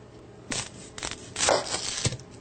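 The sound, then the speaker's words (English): A knife cuts the head and root off a rinsed onion: a few short, crisp crunching slices with brief tearing crackle, separated by pauses, with no talk. “I always rinse my onions and then cut off the head and the root.”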